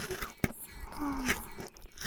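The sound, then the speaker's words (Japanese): Chewing and crunching as something is bitten apart: one sharp, loud crunch early on, followed by softer crunching and mouth noises over a steady background. “もぐも、シャクシャク、咀嚼されて、飲み込まれて”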